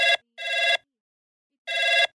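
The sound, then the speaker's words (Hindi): Telephone ringing as an outgoing call is dialed: three bright, buzzy electronic ring bursts with silent gaps. The first burst is cut short, the second lasts about half a second, and the third comes after a long pause. “अब हम मिलाए रहे हैं phone एक छोटी सी बिटिया दीपिका का।”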